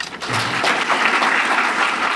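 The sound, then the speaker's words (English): Audience rising in a standing ovation after a speaker's talk about trauma, with thick, continuous applause from many hands, loud and even throughout. “Then the crowd rises to give him a standing ovation”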